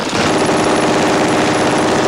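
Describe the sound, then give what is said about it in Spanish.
German machine-gun fire sweeping a beach in a war film, heard as a loud, unbroken stream of rapid shots that rattles densely and evenly from start to finish. “Los alemanes intentan poner freno a cualquier avance peinando la playa a balazos.”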